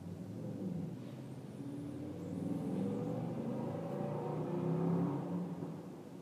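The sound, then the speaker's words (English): McLaren sports car driving past: a faint, low engine rumble that builds slightly and then eases off over several seconds, with no voices. “That was McLaren. Yeah. Yeah. Get a good look at it. It's like $250,000. That is an expensive car.”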